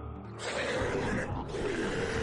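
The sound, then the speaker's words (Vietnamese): Monstrous beasts roar in a loud, rough, sustained growl that swells just under half a second in and carries on without a break to the end. “Đám yêu thú gầm lên, tấn công Lục Phù”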